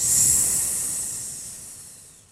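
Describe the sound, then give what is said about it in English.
A person does a snake breath, exhaling in one long, steady, high sss hiss that starts strong and slowly fades away. “Breathe in through your nose and make the S sound when you breathe out.”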